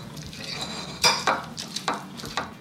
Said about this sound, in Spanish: Algo como que sonaba como en un plato, ¿no? Algo se revuelve, ¿no? Sí. Una cuchara, me parece que es.